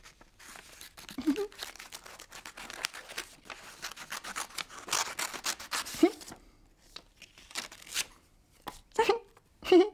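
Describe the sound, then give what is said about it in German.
Scissors snipping, a rapid series of crisp cuts and rustles spread over several seconds, with louder snips near the end and brief voices between them. “Eine Schere. Das ist eine Schere. Eine Schere? Mit der Schere kann man schneiden.”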